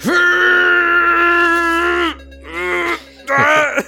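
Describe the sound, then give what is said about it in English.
A voice imitates the strain of lifting a heavy piece of dense cocobolo wood during a tabletop role-playing game, giving a long, loud, tense groan followed by two shorter strained grunts. “Give us your best lifting noises.”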